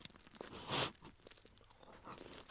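A sharp crunch of teeth biting into crispy Gindaco takoyaki, one loud brittle burst near the start, followed by quieter crackling and chewing noises.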